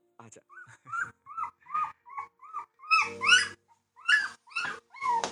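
A puppy whimpers in a long run of many short, high, whining cries and yips, each bending in pitch, with brief pauses between the louder bursts.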